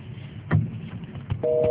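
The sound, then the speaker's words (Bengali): A telephone busy signal on a call from abroad that is not getting through: a steady dual tone sets in near the end, after a stretch of faint line noise and a few soft thumps. “এইভাবে ফোনে তো উনি আসতে পারবে বলে মনে হয় না মেঘলা। আমরা উনাকে তোমরা ফোনে ট্রাই করে কি পাচ্ছ না?”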